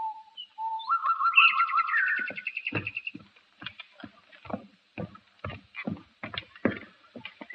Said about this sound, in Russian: Я вижу, соловей не замечает нас. Мы для них как будто и не существуем. Поют себе и поют.